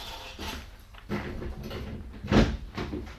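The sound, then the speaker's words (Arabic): A door being opened: faint scattered clicks and rattles from the latch or handle, then a louder thud near the end, quiet throughout. “استنى ما نفتح الباب.”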